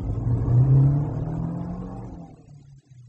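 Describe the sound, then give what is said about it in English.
A car engine revs while driving, a steady low drone that climbs slightly in pitch, then gradually fades away near the end. “I am proud of my skill at the wheel, Mr. Grove. We aren't home yet.”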